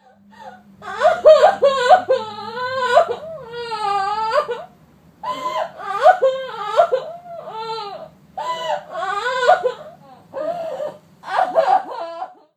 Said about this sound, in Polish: Płacz.